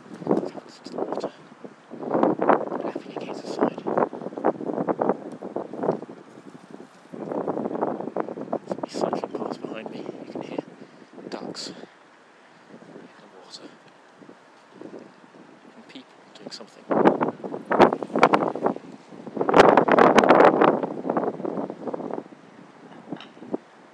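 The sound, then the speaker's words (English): Wind gusting outdoors along a walking route, buffeting the microphone in rough, rumbling bursts that swell and fade over the whole stretch, strongest in a few loud surges near the end. “Here's the wind.”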